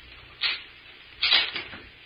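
Doors being locked, heard as two muffled clunks about a second apart, the second longer with a brief trailing rattle.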